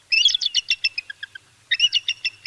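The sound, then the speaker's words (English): A bald eagle's typical call: thin, high chattering piping notes in two bursts. The first series trails off into quieter, lower notes, and no other sound is present. “In reality, the typical call of a bald eagle sounds quite different, It sounds like this.”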